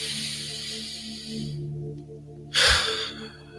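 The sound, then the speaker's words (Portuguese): Breathing in through the nose and out through the mouth during a morning meditation. Soft breathy noise is followed by one short, loud rush of breath, over steady sustained background music tones. “inspirando pelo nariz e expirando pela boca”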